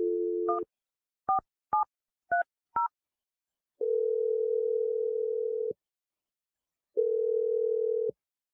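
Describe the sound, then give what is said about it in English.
A telephone dials a number. A brief dial tone and a few quick keypad beeps give way to two long, steady ringing tones separated by silence. “We're going to dial his number right now.”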